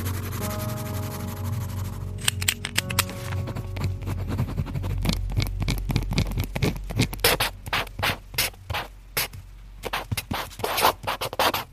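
A pen scratching on paper while writing: many quick, rhythmic scratching strokes. They are soft at first over a low hum, then become crisper and more clearly separated toward the end.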